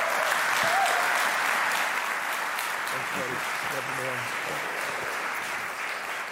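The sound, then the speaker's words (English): A church audience in Miles City applauds a visiting pastor with steady, dense clapping that holds at an even level throughout, with faint voices underneath. “would you please, Miles City family, give Pastor Daniel Henderson a warm welcome”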